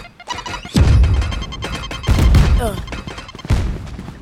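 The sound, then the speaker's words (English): Grenade explosions in a tactical shooter video game: three heavy booming blasts, each with a rumbling decay, separated by sharper cracking impacts and clatter. “Grenade! Went over.”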